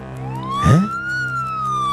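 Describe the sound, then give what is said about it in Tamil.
An ambulance siren passes by in one long, sweeping tone that climbs and then eases slightly downward. A brief, loud, low blast comes near its start, over a steady engine hum. “என்னது, நம்ம வீட்டிலேருந்து ஏதோ ambulance போகுது, என்னவா இருக்கும்?”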